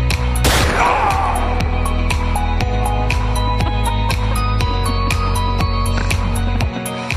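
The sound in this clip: A loud, sharp gunshot sound effect bursts out early, its ringing tail decaying beneath a steady tonal, rhythmic background that continues to the end.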